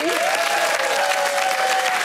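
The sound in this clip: Audience applause welcoming a guest onto a show: steady, full clapping from a crowd that stays loud and even for a couple of seconds, with a voice rising above it.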